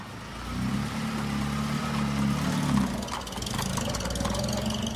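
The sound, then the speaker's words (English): A car engine rumbles low and steady as the car accelerates away down a street. The engine swells slightly partway through, then carries on evenly with no voices. “He smiles in farewell and accelerates off down the street.”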